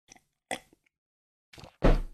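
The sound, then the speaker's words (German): Someone takes a sip of tea, making a few brief, faint slurping sounds separated by silence, then a louder, fuller burst at the end. “So, ein Schluck Tee genommen.”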